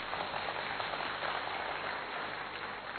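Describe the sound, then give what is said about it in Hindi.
Audience applause in a seated workshop hall, a dense steady wash of many hands clapping that holds evenly loud for about three seconds with no pauses and no voices. “जोरदार ताली बजाएं अपने लिए।”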